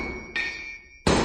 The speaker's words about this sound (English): Can you identify this sound? Hammer on an anvil.